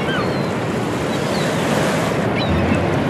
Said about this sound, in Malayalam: ഉയർന്നു താഴുന്ന പിയാനോ സ്ട്രിങ്ങുകൾ പോലുള്ള ഈ തിരമാലകളെ?